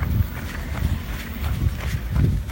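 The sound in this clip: Running footsteps of people jogging, steady rhythmic thuds repeating at an even pace with a low background hum.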